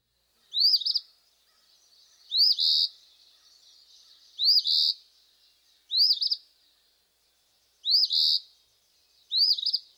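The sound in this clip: Eastern Phoebe song: six brisk, high, raspy two-note phrases come at slightly uneven gaps of roughly one and a half to two seconds, each a clipped upward note running into a harsher buzz.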